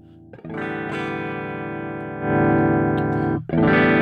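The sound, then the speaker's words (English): Electric guitar through a Plexi amp at its basic setting, ringing out in sustained, gritty overdriven chords that swell louder midway, cut off briefly, then strike a fresh chord. “Okay, so here's my basic Plexi sound.”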